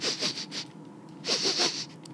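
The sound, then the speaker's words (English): Sniffing and snorting from a bear behind someone eating a sandwich. Two bursts of quick, breathy, hissing snuffles come with a short pause between them, moderately loud and without any talk. “sniff, snuffle, slobber, snort behind him.”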